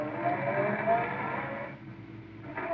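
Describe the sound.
A car drives off toward the spaceport with a steady low engine drone that dips briefly near the end before picking up again.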